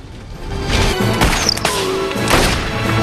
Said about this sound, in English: She lobs dynamite at the rangers. A stick lands in the trunk full of money and destroys it.